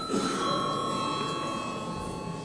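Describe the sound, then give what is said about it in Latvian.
A bell rings to call a vote in a parliament session, a steady, continuous metallic ring with bright, buzzing overtones that holds at an even loudness throughout without a break. “Lūdzu zvanu.”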